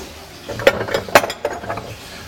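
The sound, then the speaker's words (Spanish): Unpeeled food rubbed against the wide side of a hand grater into a bowl, a few sharp rasping strokes mixed with light metallic clinks against the bowl, separated by short pauses. “Y esto se raya así de fácil, mirad. Con el rallador por la parte ancha empezamos a hacer así, ni lo pelamos ni nada”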